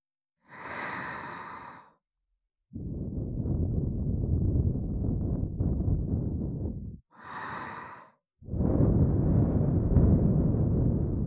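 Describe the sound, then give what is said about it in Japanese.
Breath is blown gently into the ear: two long, soft exhales with a rumbling, breathy rush, each preceded by a shorter airy inhale. The breaths are heard alone, without talk. “お耳ふうふう欲しいもんね。”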